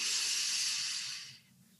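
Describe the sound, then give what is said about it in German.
A slow, soft exhale during breathing meditation, heard as a faint, airy hiss that holds steady and then fades away near the end. “Ausatmen. Ich liebe. Ich bin Liebe. Ausatmen.”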